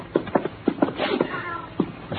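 A black cat meows several times in short, uneven bursts while being carried down a few steps into a basement. The cries are fairly loud and sit over a low, muffled background.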